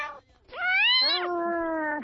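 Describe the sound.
A person imitates a cat's meow during a spoken birthday greeting: one drawn-out, voiced call that swoops up in pitch, then drops and holds a steady tone before trailing off, with a brief lower vocal sound just before it.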